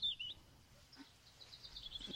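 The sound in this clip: Faint bird chirps: a few thin, high chirps at the start and again near the end, over a low background hum.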